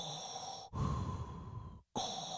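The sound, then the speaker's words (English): A voice imitates a masked villain's heavy mechanical breathing, with two long rasping breaths separated by brief silences, one grainy and lower, the other thinner and airy, at moderate loudness with no words. “whenever there's a scene with Vader, there's just this tension in the air. He doesn't even have to be speaking, but it's because that breath is going on.”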